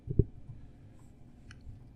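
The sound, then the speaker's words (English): Keyboard key clicks from typing, with backspace being pressed: one sharp, fairly loud click near the start, then a few faint, soft taps against a quiet background. “Can I click backspace?”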